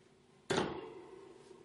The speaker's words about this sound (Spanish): La persona que graba golpea la jaula con una varilla.